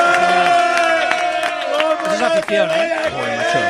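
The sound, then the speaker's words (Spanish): Crowd cheering and whooping, a loud, continuous roar of many voices with shouts rising above it through the whole clip. “Señores, esto merece un aplauso de toda, sí, Murcia.”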